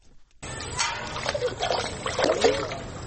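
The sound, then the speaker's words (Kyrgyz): Water splashes and sloshes as it is carried from a pond at dawn, with irregular soft splashes and trickling that come in uneven surges at a fairly quiet level. “Таң атып атпай минтип көлмөдөн суу ташып жаткан”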